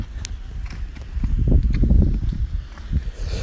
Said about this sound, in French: Aujourd'hui, une fois n'est pas coutume, je marche. Il fait froid, mais j'ai la pêche.